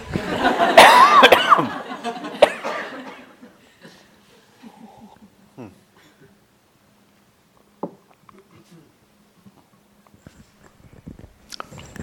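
Coughing from a tickle in the throat: a loud burst of harsh coughs opens, a single cough follows, and then it falls to near silence with only small faint noises.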